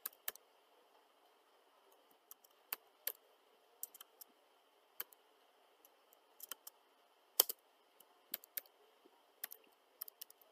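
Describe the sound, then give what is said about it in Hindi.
Keyboard typing as text goes into a spreadsheet cell: sparse, irregular clicks and taps of varying loudness over a faint, steady hum, with no voices. “Next is यहाँ पे मैं अगर कुछ भी type करती हूँ, जैसे मैंने यहाँ पे सेल्स डिटेल”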